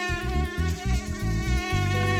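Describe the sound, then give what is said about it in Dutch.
Mosquito buzzing, heard as a steady, continuous high whine that holds level throughout without a break, with a low uneven pulsing underneath. “U heeft er misschien wel wakker van gelegen afgelopen zomer. Muggen.”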